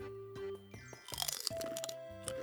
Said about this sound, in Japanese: ピーナッツおいしい、そんないっぱい食べるもんじゃないけど いただきます。